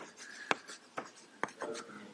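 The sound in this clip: Faint scratching of handwriting as the word narrow is written out, a few sharp strokes separated by softer scraping, with no talking.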